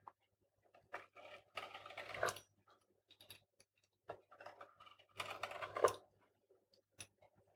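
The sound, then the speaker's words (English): Strips of material are cut by hand in irregular bursts of crisp, rasping snips, with short silent pauses between the runs of cuts. “All right, so let's start cutting some strips.”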